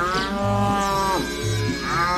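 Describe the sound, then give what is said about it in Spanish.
A dairy cow moos, a loud, rich, drawn-out call with a wavering pitch that breaks briefly and resumes, heard alone. “jamás había visto una vaca que diera tanta leche”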